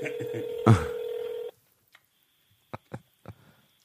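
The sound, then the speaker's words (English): Telephone call tones: a steady tone sounds for about a second and a half and cuts off, followed by near quiet with a thin high tone and a few sharp clicks. “Come on, Jaleel. Come on, Jaleel, pick up.”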